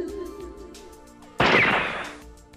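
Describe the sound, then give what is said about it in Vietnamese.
A single loud gunshot breaks a quiet stretch, a sharp blast that decays over about a second. “Đoàng. Bỗng nhiên một tiếng súng vang lên, cắt đứt sự yên tĩnh.”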